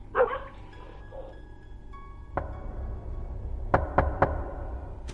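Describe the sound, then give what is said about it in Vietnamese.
Knocking on a door, three knocks at a time: one sharp rap, then three quick, evenly spaced knocks, all fairly faint over a low, steady background hum. “Tiếng gõ cửa cứ 3 tiếng một.”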